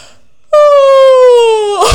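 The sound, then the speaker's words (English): An exaggerated yawn voiced aloud during a face-loosening exercise: one sustained moaning note that slowly sinks in pitch, ending in a breathy exhale. “And stretch them down your face as you yawn. So you're like,”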